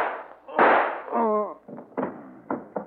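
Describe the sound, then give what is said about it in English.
A gunshot effect from a 1949 radio crime drama: a loud, noisy bang and a brief cry from a voice, followed by a few sharper, shorter cracking reports. “So you still have my gun. Yes, and I'm going to use it on Homer now.”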